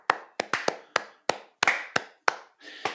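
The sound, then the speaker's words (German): One person claps their hands in a steady, evenly spaced run of sharp single claps, each crisp and loud with a short decay, and no voices in between. “Also Bravo. da muss ich, also Hut ab, mein Danke, Lieber. ich applaudiere mir selbst.”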